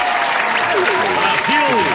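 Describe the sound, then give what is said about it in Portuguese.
A round of applause rises as dense, even clapping from many hands, loud and sustained from start to finish, with voices mixed into the clatter. “Salva de palmas, então, pra contar.”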